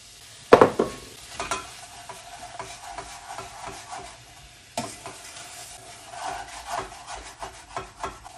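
Sugar is sprinkled over cherries for preserving, making soft gritty rustling and light scraping bursts, with a sharper onset near the start and another about midway.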